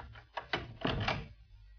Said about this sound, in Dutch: gaat naar binnen en doet de deur dicht.